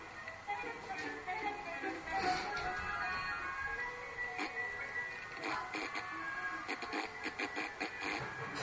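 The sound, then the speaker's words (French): An automatic feeding machine breaks down in a Charlie Chaplin silent film, giving scattered mechanical ticks, taps and clattering over tinny, band-limited music. “Alors, Charlie Chaplin, là, il aurait bien s'arrêter de manger. Mais la machine. En train de se déglinguer complètement.”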